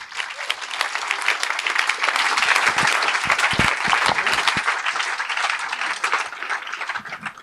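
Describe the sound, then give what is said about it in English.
Festival audience at Greenbelt applauding to welcome a speaker onto the stage, a full burst of clapping that builds, holds strong in the middle and gradually thins out toward the end. “So please give a big Greenbelt welcome to Sophie Pavel.”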